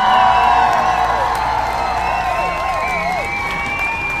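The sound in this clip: An audience cheers and applauds for the hosts of a show, a loud, steady wash of clapping mixed with whoops and shouts that continues without a break.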